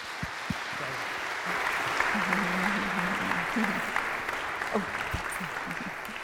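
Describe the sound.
Audience applause welcoming two speakers to a morning gathering reflecting on a psalm: a steady wash of clapping with a few sharper knocks at the start, and a voice rising briefly above it midway.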